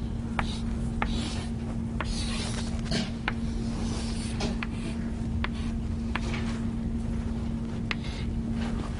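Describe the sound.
Faint, irregular pen scratches and light taps come from a knot diagram being drawn by hand, spread sparsely over a constant low electrical hum.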